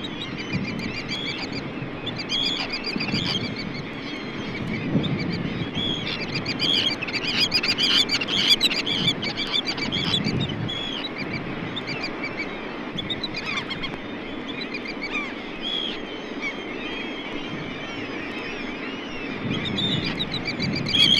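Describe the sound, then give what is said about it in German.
A pair of Baltic coast birds calls at their nest, giving several call types in a series of sharp chirps and calls. The sound stays at fairly even loudness over a steady background. “Das nächste Beispiel lässt 7 verschiedene Rufformen von einem Paar am Nest hören. Die klangvollen Di-di-di-di-Rufe am Schluss gehören zum Futterübergabe- und Begrüßungsverhalten”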